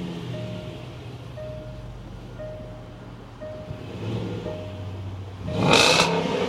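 The supercharged engine of a 2014 Range Rover Sport rumbles low and steady beneath a soft, repeating chime tone. Near the end it swells into a short, loud, throaty rev.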